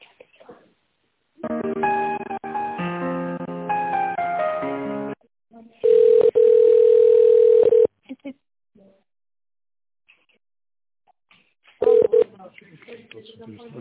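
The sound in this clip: Telephone tones play while a business call is transferred: a stretch of shifting melodic tones, then a long steady beep and a shorter one later, with brief voices at the start and end.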